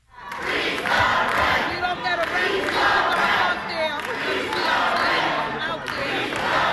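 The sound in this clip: Tenants at a rent board meeting chant "freeze the rent" in unison: a loud crowd of voices repeats the same short rhythmic phrase continuously, with shouting and noise layered over it.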